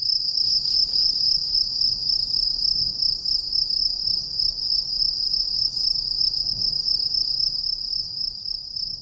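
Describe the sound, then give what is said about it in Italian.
Crickets chirping in a steady, continuous high-pitched trill that holds at an even loudness throughout, with no voices or other sounds. “I grilli, come piccoli aghi diffusi, esplodono la mia bolla di sapone e mi portano in me”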